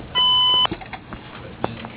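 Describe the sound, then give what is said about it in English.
A voicemail beep tone: one steady, high electronic tone lasting about half a second, followed by faint background noise and a few soft knocks. “Please leave a message at the tone.”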